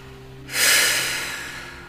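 A single forceful exhale through the nose during a stress-release meditation breathing exercise: a sudden, loud, breathy rush that starts abruptly, then slowly trails off over a faint, steady low hum.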